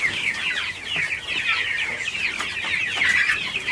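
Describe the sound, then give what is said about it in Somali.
Many chickens cluck and chatter at a poultry farm housing around 700 birds. Overlapping high calls form a dense, continuous din with no pauses. “Waxaan ku booqanay mid ka mid ah xarumaha uu ku xanaaneeyo digaagta, taasoo oo ay ku xareysan yihiin ku dhawaad 700 oo digaag ah.”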